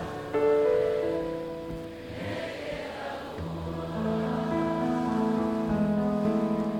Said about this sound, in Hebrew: אף מכונית לא עוברת, גשם שוטף את העיר, הרוח מתגברת ועושה שמות